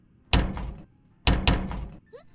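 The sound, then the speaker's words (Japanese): Two heavy thuds, each a doubled bang, come from someone shoving against a hotel room door stuck shut by its auto-lock. A short voice sound follows at the end. “なんで扉が開かないの？”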